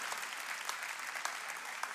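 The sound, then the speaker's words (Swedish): Applause from a church audience during a worship service: dense, steady clapping that keeps an even level through the full two seconds, with no voices over it. “Ja, en applåd till.”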